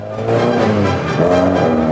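A car engine as the car drives off, a loud, continuous rumble with a steady tonal drone that swells slightly partway through, with no voices.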